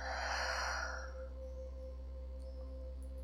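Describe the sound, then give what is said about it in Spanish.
A slow breath let out through the mouth during a guided breathing exercise, a soft airy rush lasting about a second that fades away, leaving only a faint, steady low hum. “Una última vez, inhalas. Y por tu boca sueltas.”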